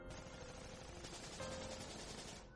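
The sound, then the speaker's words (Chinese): A dense, rapid rattle of crisp gunshots ringing out at a fortified stronghold, one continuous faint burst of fire that tapers off at the very end. “突然之间壁垒响起清脆的枪声，王润一下子站了起来。”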